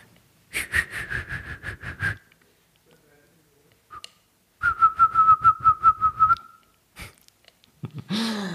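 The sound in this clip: Whistled imitation of a call: two whistled phrases, each a fast run of clipped, pulsing notes at a fairly high pitch. The second phrase sits slightly lower than the first. Breathy sniffs and short breaths fall between and after the phrases.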